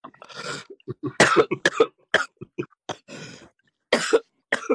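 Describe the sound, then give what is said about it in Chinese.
Harsh, raspy coughing performed as a comedy act at a talent contest: many coughs in irregular clusters of short bursts, some loud and strained, with brief pauses between the clusters. “娘娘都咳成这样了，别事情了吧？”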